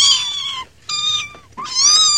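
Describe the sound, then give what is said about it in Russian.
A cat meows three times, each call clear, high and tonal with a short gap between them. The meows are loud and stand alone, and the last one bends slightly upward in pitch. “Жили-были на ферме кошечка с котятами.”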